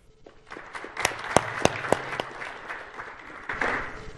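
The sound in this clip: Applause welcoming a panellist at a technology panel begins with scattered sharp claps, builds into fuller clapping, then swells again near the end.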